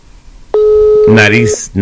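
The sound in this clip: An electronic telephone tone signals an incoming phone call: a steady, clear tone of about a second, soon joined and covered by people talking.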